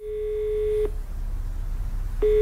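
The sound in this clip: A telephone ringback tone sounds as a call is placed. A steady, pure mid-pitched tone plays for under a second, cuts to silence, then starts again near the end.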